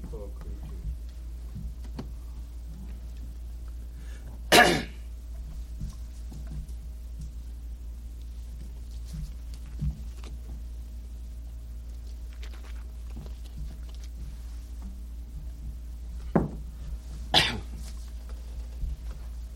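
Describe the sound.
Short, sharp coughs from a speaker with asthma: a few separate, abrupt bursts spread across the span, with long quiet stretches between them.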